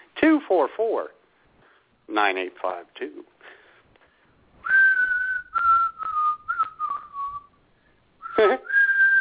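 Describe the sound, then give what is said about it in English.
A person whistles a few sustained, slightly wavering mid-pitched notes, with people talking before the whistling and a voice returning over a final whistled note at the end. “you whistlers out there, stop.”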